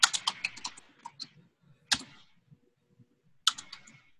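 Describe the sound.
Typing on a computer keyboard: a quick burst of many light keystroke clicks, then a few scattered, sparser taps with pauses between them.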